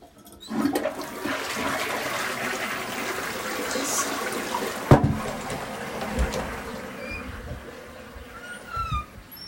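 A toilet flushes with a surge of rushing water that swells quickly and holds for several seconds, then gradually thins into gurgling and trickling as the tank drains, with no talking.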